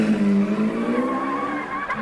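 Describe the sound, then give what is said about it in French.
A stolen car starts and speeds off: an engine whines with screeching tyres, a strained, tonal sound that climbs slightly in pitch over about two seconds. “« Démarre et fonce !» ordonna-t-il à Walid.”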